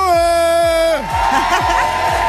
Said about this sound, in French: Il y a un peu de monde. Ouais. Il y a beaucoup de monde aujourd'hui à Caen.